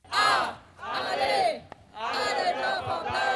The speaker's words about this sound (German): Und so haben heute rund 1000 Menschen im rheinischen Braunkohlerevier gegen die Zerstörung weiterer Dörfer demonstriert.